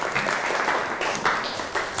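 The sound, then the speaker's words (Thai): Applause from students in a class clapping for themselves: dense, even clapping that carries on steadily for about two seconds. “ทุกกลุ่มเก่งมากปรบมือให้ตัวเองหน่อย”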